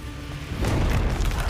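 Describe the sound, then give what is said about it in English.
A staged car explosion effect, a broad low boom that swells in after a quieter stretch and keeps rumbling steadily at a fairly loud level until the end. “That was the shittiest explosion effect I've seen in a long time.”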